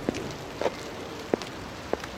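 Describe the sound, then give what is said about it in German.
Steady rain falling on a surface, a soft continuous hiss with a few sharper drips standing out at intervals, heard alone without voices. “Auch am 15. Juli hörte der Regen nicht auf.”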